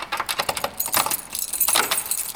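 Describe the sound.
A bunch of keys, kept for small railway motor cars, jangles in a bright, continuous metallic rattle of many quick clinks, with no voices.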